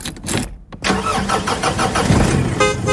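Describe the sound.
Engine of a mobile bar truck starting up: a few short cranking bursts, a brief pause, then the motor catches and settles into a loud, steady running rumble.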